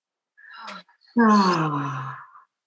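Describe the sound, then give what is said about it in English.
A deep group breath during a guided breathing exercise: a short, soft inhale, then a long, voiced, sighing exhale that starts loud and fades out. “Let's take one full inhale together. Inside out. Two more times. Inhale deep.”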